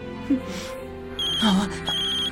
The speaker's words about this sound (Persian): باید تماس دوستتو جواب بدی